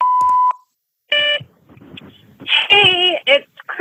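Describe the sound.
A voicemail beep sounds as one steady, mid-pitched electronic tone lasting about half a second, loud and clean, then after a short pause a person starts speaking.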